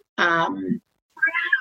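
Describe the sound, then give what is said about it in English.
Cat meowing: two clear meows with a short silence between them. The first is longer and drops lower at its end. The second is shorter and higher. “I can hear the cat now.”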